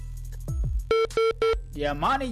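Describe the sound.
A telephone rings with an incoming call on a radio show: three short, steady electronic tone bursts in quick succession, with voices talking just before and after.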